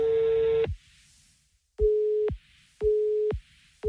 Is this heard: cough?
no